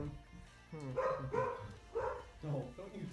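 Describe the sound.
A person imitating a dog's barking with the voice, giving a quick string of several short, rough, voiced bark-like yelps at an uneven rhythm. The barks are fairly loud and stand alone without plain talk.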